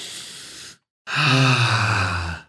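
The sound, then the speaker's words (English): A deep breath: a breathy, noisy intake, a short silence, then a longer, louder voiced exhale like a sigh. “Okay, you ready? Deep breath.”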